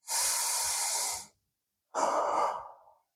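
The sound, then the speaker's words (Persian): A deep breath taken during a guided relaxation exercise: one long, airy inhale is followed after a short pause by a slightly shorter, softer exhale that trails away. “روی صندلی راحتی، یه حالت لم دادن، ریلکس، چشماتو ببند، یه نفس عمیق بکش”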